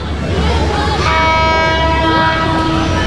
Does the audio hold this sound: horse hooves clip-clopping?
no